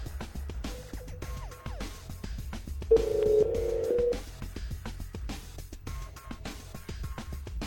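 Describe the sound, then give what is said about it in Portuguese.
Telephone sounds from a call placed during an on-air radio phone-in: a single steady tone lasts about a second midway, over a busy rhythmic background bed that continues throughout. “Geovane Soares, morador de Taguatinga, se prepare porque estamos ligando para você.”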